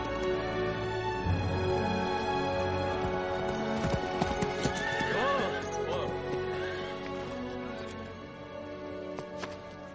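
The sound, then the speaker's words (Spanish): Horses neigh, with hooves under them, as a horse-drawn chariot arrives at a temple surrounded by a vast swamp. The whinnies rise and fall through a dense, continuous wash of loud sound. “El carro llega a un templo rodeado de una vasta ciénaga.”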